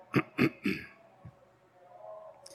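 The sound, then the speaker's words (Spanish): A pastor clearing his throat: three rough, throaty bursts in quick succession, then a fainter fourth, alone with no talk. “Entonces el pastor aclaró su garganta.”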